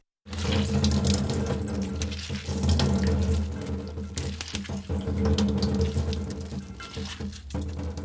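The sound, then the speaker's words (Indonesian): Water streams and splashes steadily as boiled spinach is squeezed by hand over a strainer, a continuous, fairly loud trickling rush with no talking. “Kalau sudah dingin, langsung tempatkan pada saringan atau wadah berlubang. Peras bayamnya agar tidak terlalu basah.”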